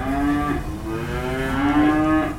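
Cattle on a farm mooing in a few long, low, drawn-out calls, each a steady bellow that swells and fades, with no talk over them.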